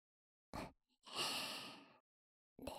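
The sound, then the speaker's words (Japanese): Soft ASMR blowing into the ear: three faint, breathy puffs, a short one, then a longer sustained exhale, then another starting at the end, with quiet gaps between. “お耳の中全体がくすぐったくなるよ。いっぱいふうふうしますから。”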